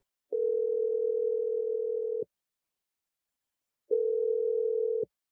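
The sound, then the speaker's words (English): A telephone tone while dialing a number: two steady, mid-pitched tone bursts, the first about two seconds long and the second about one second, separated by a short silence. “I'm going to dial his number.”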